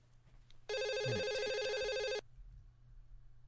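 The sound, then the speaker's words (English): A telephone rings once on an outgoing call, a steady electronic trilling tone lasting about a second and a half, with faint background noise before and after it. “So I'm sure we've got both numbers. I'm dialing right now.”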